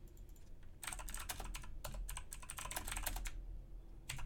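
Notes are typed on a computer keyboard. Many quick, faint key clicks come in uneven bursts with short pauses, and no one speaks.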